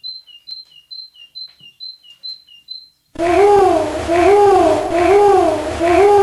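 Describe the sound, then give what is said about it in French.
Great tit song: a rapid run of high, clear two-note phrases repeated evenly for about three seconds, then abruptly replaced by a loud, continuous wavering sound. “la mésange charbonnière”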